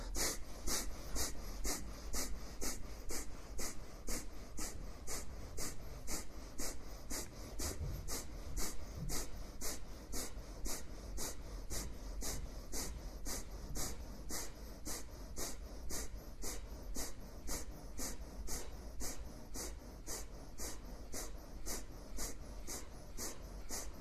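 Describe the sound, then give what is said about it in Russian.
Rapid, forceful Kapalabhati yoga breathing: many sharp exhalations pulse through the nose at a fast, steady, even rhythm, fairly faint and sustained throughout without talking. “Начинаем Капалабхати, 108 раз, поехали.”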